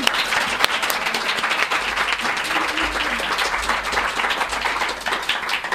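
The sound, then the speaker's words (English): An audience applauds to welcome an award-winning author: dense, steady clapping from many hands that holds at an even level for nearly six seconds, with no talk over it. “Now, will you please join me in giving Laura Lippman a warm welcome?”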